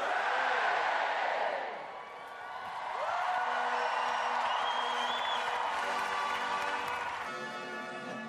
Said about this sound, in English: 3 resounding cheers for Her Majesty the Queen. Hip hip! Hooray! Hip hip! Hooray!